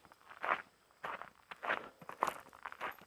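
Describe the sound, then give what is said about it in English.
Soft footsteps of someone taking a walk fall at a steady, unhurried pace. Several quiet, scuffing steps sound alone, without talk. “taking a walk when you're trying to think through something, like this, for instance.”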